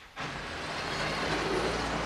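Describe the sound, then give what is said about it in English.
Adele's car pulling up, heard as low engine rumble and road noise that cuts in abruptly after a brief quiet moment, then holds steady and fairly loud for about two seconds. “Later, Adele's pulling up in her car.”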